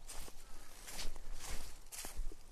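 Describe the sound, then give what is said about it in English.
Footsteps walking along a high embankment about 20 feet tall, a few soft, evenly spaced crunching steps over a low steady background, with no voices. “So walking along an embankment here that's approximately 20 foot high,”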